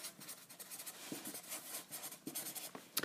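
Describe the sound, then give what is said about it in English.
A pen scratches across paper as dates are written in, giving soft, continuous scraping strokes with small irregular pauses. The sound is quiet and there is no talking. “So I'm writing that in.”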